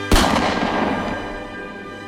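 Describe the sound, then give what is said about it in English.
A single gunshot from a hunting gun being sighted in: one sharp, loud crack followed by a long rumbling decay that slowly fades over about two seconds. “Sight in your hunting guns, you want a kill shot on this year's wall hanger.”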